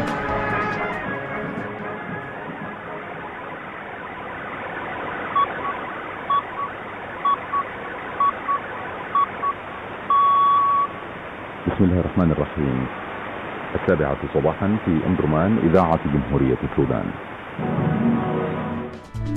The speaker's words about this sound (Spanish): hemos escuchado la emisora sudanesa Radio Omdurman en la frecuencia de 7.205 kHz